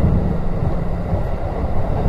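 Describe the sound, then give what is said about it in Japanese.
Steady low rumble inside a moving late-night Biwako Line train running from Kyoto toward Hikone, a continuous even drone of wheels and carriage with no distinct separate events and no voices. “今はですね、これ、もう夜中の、琵琶湖線ですね、京都から彦根に向かう琵琶湖線の中でお送りしております。”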